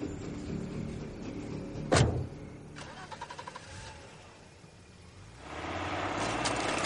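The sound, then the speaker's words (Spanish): A car starts and drives away as a woman gets in and leaves: a sharp thud near the start, then a low engine hum that swells louder toward the end. “se mete en su coche y se marcha”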